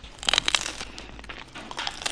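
Crisp, crackly crunch of biting into a pan-fried meat bun with a crispy fried base and soft, fluffy top, a short cluster of sharp crackles followed by fainter crunching as it is chewed.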